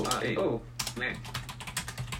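Typing a search on a computer keyboard: a quick, irregular run of many clicking keystrokes at moderate loudness, over a low steady hum.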